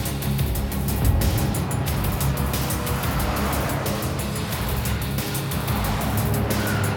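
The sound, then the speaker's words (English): A convoy of vehicles, an ATV, a school bus, a van, an ambulance, a truck and a tanker, rolls along a dusty desert road, heard as a loud, continuous low engine rumble and road roar that holds steady throughout. “Dust clouds rise from the ground as the ATV, the school bus, a van and an ambulance, a truck and a tanker roll through the arid, sun-parched landscape.”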